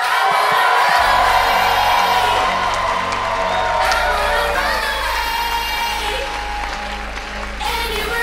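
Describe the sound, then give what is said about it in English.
Audience applause and whoops greet a comedian's entrance, a loud, unbroken roar of clapping and cheering that holds steady and only eases slightly near the end. “Make some noise for Betsy Sodaro!”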